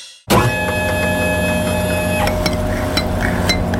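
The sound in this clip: A home ice cream maker runs, its motor starting abruptly into a steady, loud, tonal whirring hum. A few faint clicks and rattles come in later.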